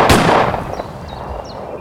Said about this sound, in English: Frederick, did you hear that? Sounded like Pa's gun. He must have followed us here.